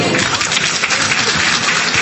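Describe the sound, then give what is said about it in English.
Loud, steady applause from an award-ceremony audience at a Brooklyn College and CUNY event, a dense, even wash of many hands clapping without pause. “Another round of applause for Peter Lee.”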